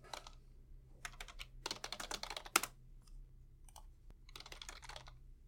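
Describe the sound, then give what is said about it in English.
A Google search is typed on a computer keyboard as faint bursts of rapid key clicks separated by short pauses, over a low steady hum. “I want you to open a browser, and I want you to go to Google, and I want you to do a search for the phrase, click here. Now, remember, I'm going to do it with you right now as I'm recording this episode.”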